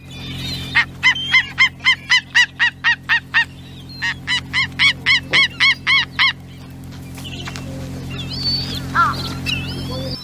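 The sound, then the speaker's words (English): A Steller's sea eagle from the Russian Far East calls in two long bursts of rapid, evenly spaced, honking barks, loud and regular, followed by a few softer scattered notes over a steady low hum. “That's the call of a sea eagle. And if we're in the far east of Russia, we're talking about the Stella's sea eagle, I imagine.”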